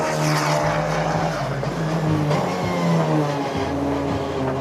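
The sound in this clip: Race car engine accelerating out of a corner on a racing circuit: a loud, droning, harmonic engine note that shifts pitch in steps, heard alone without voices.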